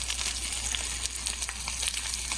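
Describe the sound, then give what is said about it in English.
Steak sizzling in a pan of hot olive oil and butter, a steady, fairly soft hiss dotted with fine crackles and spits, heard alone. “He's heating it perfectly with just a little bit of olive oil and a little bit of butter to the point where when it hits the pan, it makes that sound. You know, it's so delicious. I mean, here's a video of a steak he made on Tuesday.”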